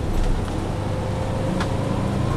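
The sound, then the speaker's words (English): Rumble of a moving bus: a steady low engine and road drone under broad hiss, unbroken throughout, with no voices. “Do you know if this bus... this bus goes back to the Green Line, or the L at all?”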